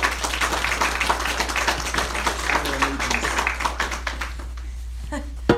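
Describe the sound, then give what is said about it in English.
An audience at a morning service applauds to welcome a speaker, with dense, steady clapping that thins and fades out near the end. “So will you put your hands together and welcome her to come and share with us this morning.”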